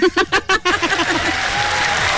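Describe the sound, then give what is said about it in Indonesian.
Audience applause: a few short, loud vocal bursts give way to dense, steady clapping that holds at an even level to the end. “kita bagi tepukan gemuruh”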